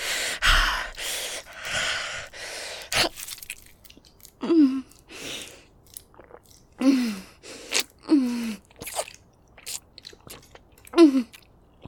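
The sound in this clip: A creature feeding, biting and chewing as it drinks its victim dry: a few loud breathy rushes, then repeated wet gulps broken by short, falling groans at uneven intervals.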